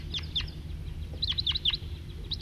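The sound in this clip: A flock of wild birds gives short, high chirping calls, many repeated in quick bursts over a steady low rumble.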